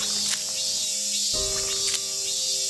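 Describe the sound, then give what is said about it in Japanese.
Cicadas chirping in a steady, dense high-pitched drone that holds throughout without pause, with a single low thump partway through. “セミの鳴く音”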